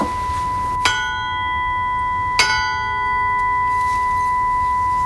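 A steel bell made from tube is struck twice, each sharp strike blooming into a long, sustained ring of steady, clear overtones that carries on to the end.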